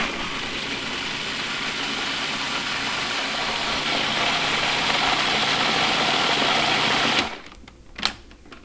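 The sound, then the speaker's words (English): A blender purees harissa sauce with fresh mint leaves, making a steady, loud whirring drone for about seven seconds before cutting off, followed by a brief knock. “So I'm gonna puree this.”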